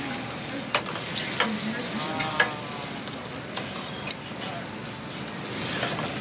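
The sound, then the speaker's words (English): A butter sauce with fresh sage cooking in a pan, a steady sizzle under stirring and a few sharp metallic clinks. “So we make a butter sauce in the pan to order. Fresh sage in there.”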